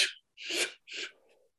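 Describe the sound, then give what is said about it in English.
A person takes a deep, full exhale during a guided breathing exercise. It comes as three breathy bursts of air, the last trailing off softly. “Exhale all the way.”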